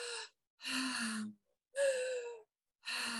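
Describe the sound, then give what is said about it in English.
Slow, deep breathing, airy and fairly faint. Four separate breath sounds, inhales and exhales, come in an even rhythm with short silent gaps between them and no talk. “Try to find a rhythm that works for you. You could do it like one big breath.”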